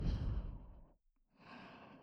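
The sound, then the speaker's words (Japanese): Two slow, warm exhaled breaths pushed from deep in the throat, soft and airy, with a short silent pause between them. “喉の奥から吐息を吐いて、体温がしっかりこもった吐息”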